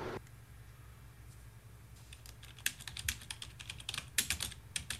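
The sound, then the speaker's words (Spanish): Typing on a keyboard, starting with near-quiet room hiss, then a lively run of many irregular clicky keystrokes through the second half, some louder taps standing out. “Perdón, o hablo o escribo. No puedo hacer las dos cosas al mismo tiempo.”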